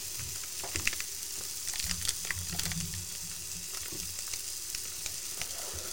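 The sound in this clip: Bacon sizzles while frying, giving a faint, steady hiss scattered with many small crackles and pops, with no voices.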